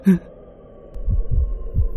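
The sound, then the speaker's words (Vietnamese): A pounding heartbeat effect plays during a spoken horror tale. After a brief tone, a few deep, muffled thumps repeat in a steady rhythm over a faint hum. “Tim Toàn lúc này đánh lên thình thịch.”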